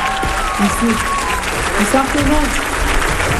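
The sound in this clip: Audience applause for composer Oussama Rahbani: dense, steady clapping that holds for the whole stretch, with scattered shouts and voices rising over it.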